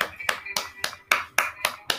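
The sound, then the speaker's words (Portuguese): Clapping hands keep a steady beat: eight sharp, crisp claps at an even, brisk tempo, each striking clearly with a short decay before the next. “Palmas para você.”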